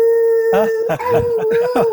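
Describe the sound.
A voice imitating neighborhood dogs howling holds one sustained mid-pitched howl through the whole clip, with rougher voiced bursts rising over it from about halfway in.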